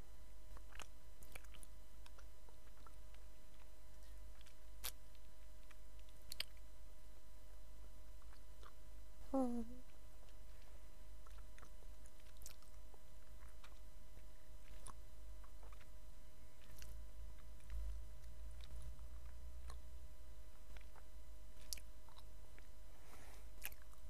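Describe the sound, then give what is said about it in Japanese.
Faint chewing of a grape-flavoured snack with 30% juice, scattered soft crunches and squishy clicks spread sparsely across a long, quiet stretch. “30% 入りグレープ味です。 おお、グレープの匂い。 いただきます。”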